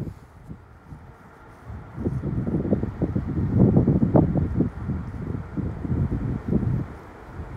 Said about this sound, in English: It's also very windy, so I won't be here long.